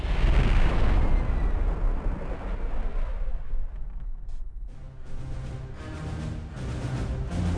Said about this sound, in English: We have been cleared for takeoff. As I feel the rumble as the ship's engines begin and we start to rise